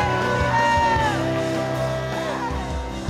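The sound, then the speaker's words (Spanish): A church audience shouts praise to Jesus, a loud, continuous mass of yells and whoops from many voices that stays dense throughout. “Come on, you can do better than that. Give him a shout of praise. Dale un grito de júbilo. Come on, one more shout of praise.”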